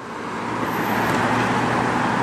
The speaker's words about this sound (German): Jeden Morgen das gleiche Bild. Stoßstange an Stoßstange quälen sich die Autos Richtung Zentrum.